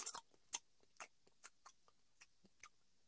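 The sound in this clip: A voice imitates someone loudly chewing gum with a quiet string of wet mouth clicks and smacks in an uneven, lip-smacking rhythm.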